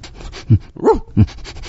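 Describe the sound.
Panting and huffing of a dog hunting by scent for a lost bell collar: quick soft breaths punctuated by three stronger gusts, the middle one carrying a brief pitched, whining tone.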